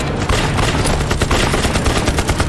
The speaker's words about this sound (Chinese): 一会儿我说打，你把你机枪里的子弹都给我打光了。